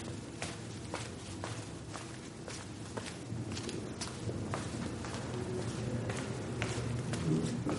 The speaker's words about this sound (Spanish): Él camina por unos pasillos vacíos del hospital.